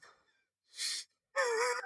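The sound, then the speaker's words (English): A voice imitates an out-of-breath person gasping: a breathy intake, a pause, then a loud, strained voiced exhale. “he's just all out of breath. He's just like...”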